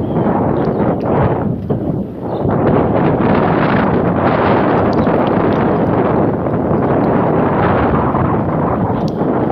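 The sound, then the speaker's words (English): Wind blows hard across a mown lawn, a loud, continuous rumbling buffet against the microphone that dips briefly before surging back steady. “There's enough wind, I can feel it blowing my mustache around.”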